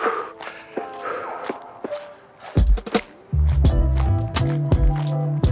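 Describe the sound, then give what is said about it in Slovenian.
Footsteps of someone walking briskly uphill during run training: a string of irregular scuffing steps, faint at first, then louder and denser over a steady low rumble in the second half. “Jaz hodim v klanec, tako da je hoja še bolj živahna, močnejša in zleze bolj pod kožo.”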